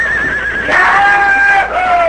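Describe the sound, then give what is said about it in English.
A stallion whinnies as it bucks under a rider before a watching crowd and cowhands. The neigh is a loud, sustained cry lasting about two seconds, with a wavering pitch. “Then the two cowhands leaped aside, and the stallion went into action.”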